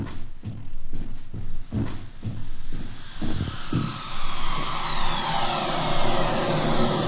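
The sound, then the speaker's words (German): A spaceship lands on a spaceport landing field: a loud, continuous engine-like roar pulses rapidly through the first half, then settles into a steady rushing roar with a high whine sweeping downward. “Dort landet das Schiff.”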